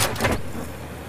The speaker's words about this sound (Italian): Apri lo sportello e avvia il motore.